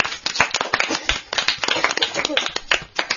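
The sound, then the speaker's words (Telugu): An audience claps for a small girl who has just recited the lunar star names at a Telugu quiz event. Dense, uneven claps from many hands run throughout, with talk mixed in. “ఒక్కసారి సాహితీకి అందరూ claps కొట్టండి.”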